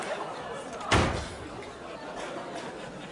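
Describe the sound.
A door slams shut in a late-1970s stage comedy recording, a single sharp, loud thud that cuts through surrounding conversation and decays quickly while people keep talking.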